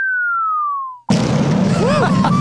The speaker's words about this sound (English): Oh, I got to drop a bomb here.